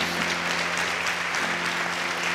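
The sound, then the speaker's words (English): Congregation hand clapping at a church service: dense, steady applause from many hands that holds at an even loudness for the whole stretch, with no gaps or clear individual claps. “Come on, church. Give them a hand clap.”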